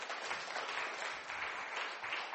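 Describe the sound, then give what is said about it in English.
Audience applause at a Bible-themed gathering: soft, slightly muffled clapping from a group, running continuously with small swells and dips in level. “big round of applause for Joel there”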